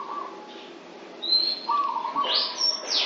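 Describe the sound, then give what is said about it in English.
A bird chirps, a few sharp, high tweets following a softer, fainter call at the start, heard alone without voices. “And that sound? You mean the bird? The bird sound.”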